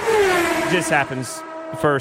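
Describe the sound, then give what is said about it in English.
A NASCAR race car runs alone off the pace at Daytona during Daytona 500 weekend, its engine a steady droning tone beneath a man's talk throughout. “That sound was that was Jimmy Johnson off the pace this year, running by himself after all the cars in the pack.”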